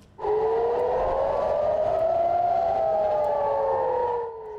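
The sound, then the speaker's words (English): Air raid sirens blare near Israel's northern border with Lebanon during a drone barrage: a loud, sustained wail starts abruptly, with two siren tones slowly crossing, one rising as the other falls, before cutting off near the end. “sirens blared and smoke billowed near Israel's northern border with Lebanon as Hezbollah launched a barrage of drones for a second day.”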